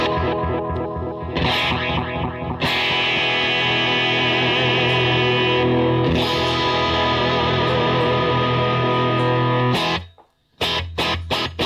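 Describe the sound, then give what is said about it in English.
An electric guitar plays through a Sonicake twin reverb-and-delay effect pedal, with the delay switched on. Sustained, distorted chords ring out with echoing repeats for several seconds, then cut to a brief silence before a few short strums. “Actually, I already have it. It's actually on already. Obviously, it's on some delay.”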